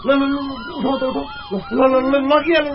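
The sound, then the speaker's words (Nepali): Ambulance siren at a road accident scene where a pedestrian was hit, a loud harmonic wail whose pitch swoops up and down repeatedly, with short breaks in the sweep. “Ambulance ambulance”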